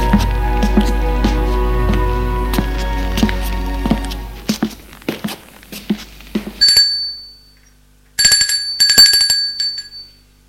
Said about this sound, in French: À 19h, il va sonner chez elle.